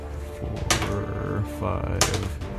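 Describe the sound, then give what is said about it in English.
Three six-sided dice are rolled, with a few sharp clattering impacts over a low, steady background. “Roll 3d6 and see what the damage is there.”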